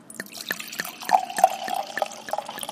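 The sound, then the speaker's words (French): Beaujolais nouveau red wine pours from a bottle at a wine tasting counter, making a string of small gurgling glugs and drips that are fairly faint, with no voices. “Donc là, on ouvre un Beaujolais village de chez Frédéric Pastel. Un Beaujolais nouveau, forcément. Doux bruit.”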